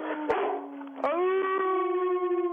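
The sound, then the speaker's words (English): A dog howls on cue, singing one long, steady, tonal wail that is briefly interrupted by a couple of sharp clicks. “The dog. You heard the dog.”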